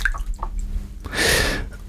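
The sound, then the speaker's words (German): A piece of paper dropped into water makes a soft, hissing splash and wash of liquid noise partway through, after a few faint small knocks and rustles. “Erstmal schmeiße ich ein Stück Papier ins Wasser.”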